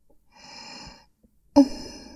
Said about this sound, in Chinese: 我的呼吸是不是听得非常的清晰？